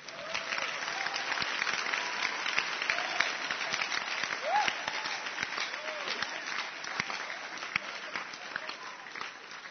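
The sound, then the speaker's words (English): A church audience claps hands during a service, a continuous wash of many claps with some voices calling out now and then. The clapping stays even in level and fairly faint throughout. “Are you clapping your hands for the Lord? Give the Lord a wonderful clap of”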